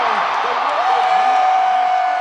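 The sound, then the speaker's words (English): Loud, sustained roar of Kansas City Chiefs fans cheering in an outdoor stadium after a record-setting crowd-noise attempt, a dense unbroken wall of cheering that holds at full strength throughout. “And of course, the rest of the announcement was drowned out by another boisterous cheer.”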